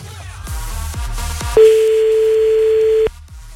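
A telephone ringback tone sounds while someone is being called back: a few soft thumps, then one steady mid-pitched tone held for about a second and a half before it stops.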